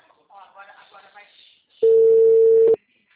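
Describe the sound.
Ringback tone of an outgoing telephone call: a voice talks briefly, then a single steady mid-pitched tone sounds for about a second and stops abruptly.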